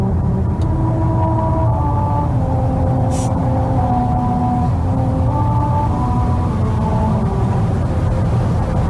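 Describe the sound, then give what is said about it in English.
Tires rolling over musical rumble strips on Route 66 near Albuquerque, New Mexico, recorded from inside a car, playing America the Beautiful: a steady low road rumble carries a string of stepped tonal notes forming the melody. “Now, this audio was recorded from inside a car. Maybe they should have opened the windows and got more of the tire ripping across the rumble strips. But that is the sound of America the Beautiful playing.”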